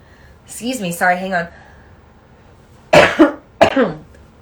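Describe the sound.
A person clears their throat while fighting nasal congestion. A brief voiced sound comes first, then two harsh, rough bursts of throat clearing after a pause.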